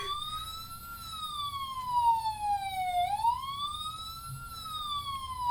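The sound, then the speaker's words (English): Toy ambulance siren from a Barbie play clinic set gives an electronic wail whose pitch slides down and then back up in one continuous sweep, over a low background rumble. “I got the Barbie Ambulance Care Clinic. Okay, and what does it sound like? It sounds like this. Put the button.”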